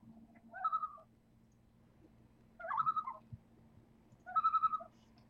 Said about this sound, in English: That was the common Canadian loon. An eerie, haunting, and beautiful sound.